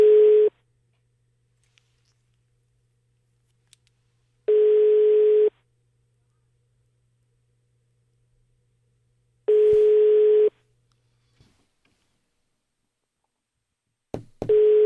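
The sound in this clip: Ringback tone of an outgoing telephone call waiting for an answer: steady single-pitched beeps about one second long, separated by roughly four seconds of silence, with two full tones between a clipped one at the start and another starting at the end, plus faint clicks.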